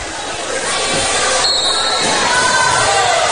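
A volleyball is bounced by the server before a serve at a girls' volleyball match between Fort Recovery and Marion Local. Steady crowd noise fills the gym throughout and partly masks the bounces.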